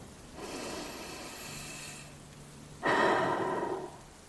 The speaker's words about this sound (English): we join together in taking three deep breaths. So let's do that now, shall we?